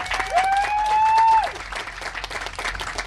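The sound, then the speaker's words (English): An audience applauds to welcome a performer at a reading event, with dense, steady clapping throughout and a loud, sustained whistle cutting through early on before the applause carries on alone. “Without further ado, welcome. Give it up for Ryan Lanham.”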